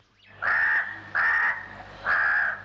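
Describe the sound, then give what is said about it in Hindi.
A crow cawing: three harsh, drawn-out caws spaced evenly, each about a third of a second long. They sound fairly faint over a low, steady hum. “कौवा उनके पास पहुंचा और बोला,”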